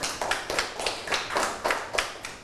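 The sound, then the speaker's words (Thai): Students clap their hands during a classroom lesson, producing soft, evenly spaced bursts in a steady rhythm that repeat many times without voices. “ปรบมือให้ตนเองอีกครั้ง”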